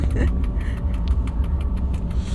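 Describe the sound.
A train locomotive rumbles steadily inside the driver's cab on a run toward Hudiksvall, giving a continuous low, dense roar with a fairly even level throughout.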